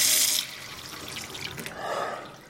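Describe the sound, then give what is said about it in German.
Water is splashed onto a face at a washbasin: a short burst of hissing, splashing water that eases into softer trickling and then swells again briefly, with no voices. “Ich flüchtete auf die Toilette, klatschte mir Wasser ins Gesicht und trocknete die Augen.”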